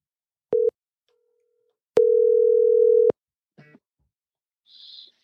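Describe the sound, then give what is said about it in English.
A telephone tone sounds as a call is placed: a short mid-pitched beep, a pause, then a longer steady tone of the same pitch, followed by a couple of faint brief noises. “let's dial up Justin Embry down in the Mid-Atlantic and see if he's available for a safety talk.”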